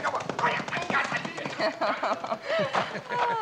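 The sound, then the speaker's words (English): Horse hooves clip-clop in a quick, even rhythm of repeated knocks in a radio drama, heard under people talking. “Come on, horsey. Come on, get your mouth.”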